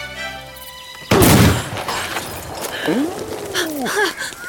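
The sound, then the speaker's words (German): A single sharp, loud gunshot from a muzzle-loading gun, loaded with a ball rammed down the barrel and fired after cocking the hammer, bursting suddenly and trailing off into a rumbling, fading tail. “Feste nachstopfen. Aha. Dann den Hahn spannen. Ja. Jetzt zielen und schießen.”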